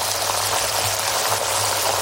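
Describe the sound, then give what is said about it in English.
Sizzling of two-day matured, award-winning sirloin steaks cooking in pure Irish butter: a steady, dense, unbroken hiss with no talk. “Two-day matured, award-winning sirloin steaks cooking in pure Irish butter.”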